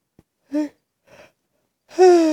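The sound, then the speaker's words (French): Mouth breathing during a guided deep-breathing exercise: a few separate breaths, some voiced like sighs or gasps, with a faint breath between them and the last exhale loudest and longest. “J'inspire. J'expire par la bouche. J'inspire.”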